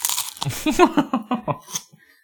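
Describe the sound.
Prawn crackers being crunched and eaten: a quick run of crisp, crackly bites and chewing, with sharp bursts following one another closely before fading out near the end.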